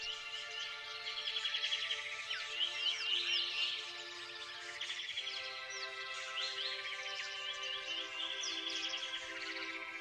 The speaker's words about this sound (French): Écoutez plutôt le son des oiseaux.